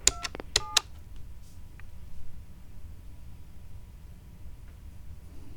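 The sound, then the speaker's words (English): Telephone keypad tones dial a three-digit extension into a company's automated phone menu: three short, bright tones in quick succession at the start, then only a faint, steady line hiss. “Let's dial a random extension number, like 327.”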